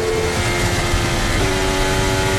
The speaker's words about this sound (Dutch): hoorde je hem terugschakelen? Vlak voor boven op de radio.